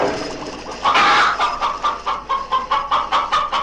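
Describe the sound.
Chickens cluck in a henhouse, a quick run of short, sharp, mid-pitched clucks that starts loudly and continues in a steady pulse to the end.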